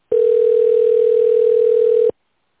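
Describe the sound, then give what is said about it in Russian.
A steady, single-pitched telephone tone plays while a call connects. It holds evenly for about two seconds and then cuts off abruptly, with no other sound around it. “Подождите, идет соединение.”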